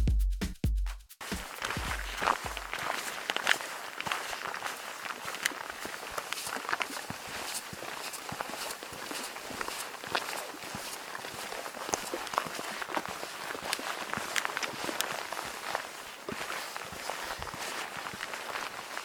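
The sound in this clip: Footsteps of two people hiking through a rainforest: a long, steady run of many steps over a constant, busy background, with a few louder thumps near the start and no talking.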